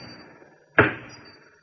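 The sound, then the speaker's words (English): A heavy door knocker drops against a massive oak door, giving a single loud, dull thud that decays quickly over faint background hum. “We mounted a set of flagstone steps and came face to face with a massive oak door. I lifted the heavy knocker and then let it fall.”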